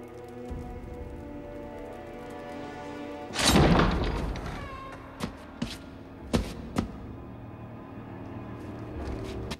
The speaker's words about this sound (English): Mr. Hyde opens a large door and walks through it